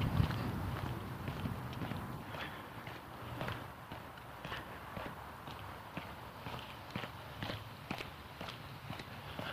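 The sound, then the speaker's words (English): Footsteps of a person walking outdoors in the morning, past flowering plants: many evenly paced steps in a steady rhythm, moderately loud over constant background noise, with no talk. “I had to actually shut the game off and come out and walk. So here I am. I'm out and walking.”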